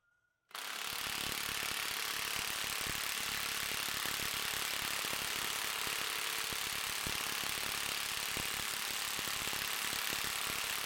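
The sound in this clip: An impact wrench hammers on a bolt in a 10-second tightening test. It starts abruptly after a short quiet moment and keeps up a continuous rapid rattle to the end.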